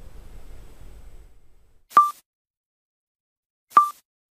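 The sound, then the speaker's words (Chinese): Pulsar signal picked up by the FAST radio telescope, rendered as sound: two sharp clicks, each carrying a brief tone, about 1.8 seconds apart, over near silence after a faint low rumble fades. “这是来自宇宙的声音。 2017年8月22号夜里， 落成还不满一年的 FAST 就收到了属于它的第一颗脉冲星信号。 脉冲每 1.83 秒响一次，”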